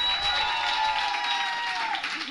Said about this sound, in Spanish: Lo primero, lo primero, pues, un aplauso para Orwick. Un aplauso para Patricia Córdoba.